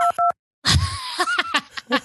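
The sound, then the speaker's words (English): Two short dual-tone beeps from a phone dial pad pressed by accident, clear and evenly pitched. A voice and laughter follow after a brief silence. “I touched the dial pad when I meant to touch the screen brightness.”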